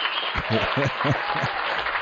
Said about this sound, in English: Let's give him a round of applause for Gates.